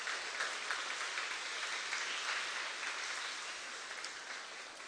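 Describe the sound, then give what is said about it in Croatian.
Audience applause welcoming a choir onto the stage: dense, steady clapping that holds at an even level throughout, with no voices over it. “Ivanom Krivokapić, pa molim jednim velikim aplauzom da im poželimo dobrodošlicu.”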